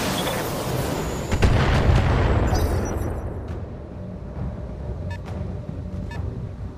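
Explosions of weapon fire striking a turret generator in a video game: a loud, dense rumbling roar that swells into a heavy boom, then decays into a long, grainy rumble with a few sharp clicks near the end.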